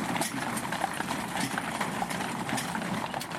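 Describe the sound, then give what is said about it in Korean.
Hooves of six horses pulling a funeral caisson through Arlington National Cemetery in autumn: steady, overlapping clip-clop that continues throughout at an even walking pace. “지난 2015년 가을 워싱턴 인근에 있는 알링턴 국립묘지. 낙엽이 수북히 쌓인 가로수 사이로 여섯 마리의 말이 끄는 탄양마차가 나타납니다.”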